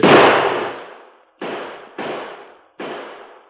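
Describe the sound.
Gunshots in a western radio drama: four loud, sharp reports, the first the heaviest. Each rings out in a long fading tail before the next, with no voices.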